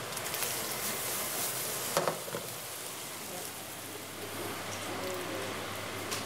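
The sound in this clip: Steady sizzling of apple wine reducing in a pan with leek and apple, the cider from a local press; a continuous even hiss with a brief louder clatter near the middle.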